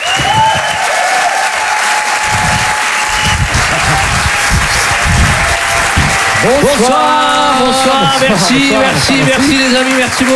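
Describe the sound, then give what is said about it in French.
An audience at a comedy club gives loud, sustained applause and cheers as an act is introduced. A tonal jingle runs beneath the clapping, and a voice rises over it in the final seconds. “En direct et en live sur Rire et Chanson, faites du bruit, s'il vous plaît, pour les jumeaux.”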